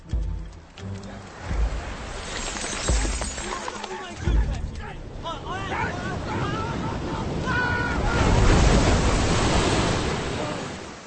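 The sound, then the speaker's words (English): Waves of an incoming tide surge and wash in repeated broad swells that rise and fall, with wind buffeting the microphone and voices faintly beneath. “Tide's coming in, that should help.”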